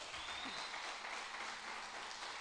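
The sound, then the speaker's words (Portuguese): A church audience gives a round of applause to Jesus during a Portuguese-language service, a faint, dense and even patter of many hands clapping without a break. “Dá uma salva de palmas a Jesus.”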